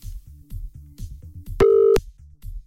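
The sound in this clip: Telephone line tones play while a call is redialed after a dropped connection: many short, low, evenly spaced pulses, then a loud steady tone that holds briefly before the pulses return.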